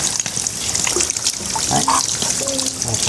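Water trickles steadily at a Shinto shrine hand-washing fountain, a continuous fairly loud splashing with small bubbling accents throughout.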